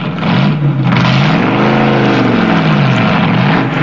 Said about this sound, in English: backs his hot rod out of a garage